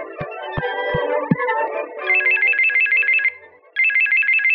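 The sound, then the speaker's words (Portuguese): A phone ringtone plays as a bright, rapidly warbling electronic trill in two bursts with a short pause between them. A brief musical passage with a few sharp beats comes before the ringing. “Atende, atende! Alô?”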